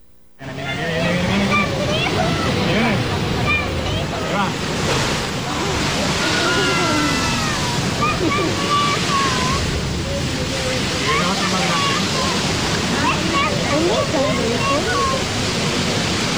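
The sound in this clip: Sea water surges and roars at La Bufadora marine blowhole on a windy day: a loud, continuous rushing wash of spray and churning surf that stays steady throughout, with indistinct voices faintly beneath.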